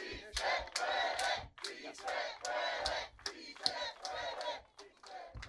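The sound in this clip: A crowd chants at the kickoff of a march to Sacramento, voices rising in rhythmic, repeated bursts with brief gaps between phrases.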